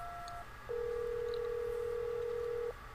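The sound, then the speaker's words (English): A phone rings as a faint electronic tone. A short, higher beep comes first, then one steady, even tone lasting about two seconds over a low background hum. “There's a phone ringing.”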